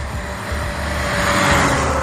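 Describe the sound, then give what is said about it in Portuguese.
Car driving down a slope on Avenida Tocantins, a street with homes and shops. Its engine and tire noise form a steady road hum that grows slightly louder toward the end. “Carro desce aqui, ó. Aqui tem casa, aqui tem comércio.”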